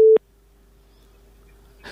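A telephone busy signal sounds on a failed listener call-in: a loud, short, mid-pitched tone burst, then a faint steady tone lingering, ending with a brief noisy burst.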